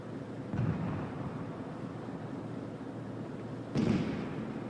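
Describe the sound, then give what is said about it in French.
Cannon fire heard as two dull, booming thumps, one early and one near the end, each a short low burst rising above steady background rumble. “Pourquoi tire-t-il le canon?”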